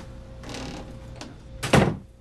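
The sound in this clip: A door closing: a few rattling, shuffling knocks followed by a louder, sharp thud as it shuts, then quiet.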